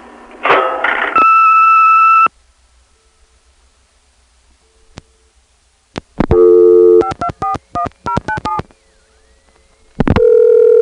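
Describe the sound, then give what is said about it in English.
Telephone tones stand in for an answering machine beep: a loud burst of tones, then a steady two-note tone lasting about a second, a silent gap, a rapid run of short dialing-like tone pulses, and finally one sustained beep. “I'm not in now, but please leave your name and number after the beep, and I'll call you back as soon as I can.”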